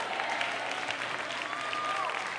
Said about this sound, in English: your hand clap's getting weak.